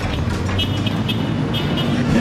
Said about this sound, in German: Jetzt lassen wir mal den, den Bus vor das sind die Berliner Busfahrer.